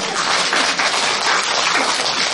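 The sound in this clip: Dense, loud audience clapping fills a Buddhist dharma talk, a steady wash of many hands applauding without pause.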